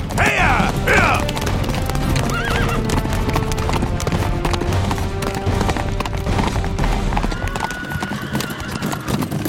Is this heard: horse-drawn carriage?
yes